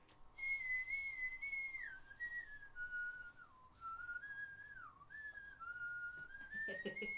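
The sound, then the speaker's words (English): Soft whistling through gapped front teeth carries one continuous wavering note that dips and rises in pitch a few times, heard alone. “I was really proud of these gappy teeth. And I figured how to whistle through them.”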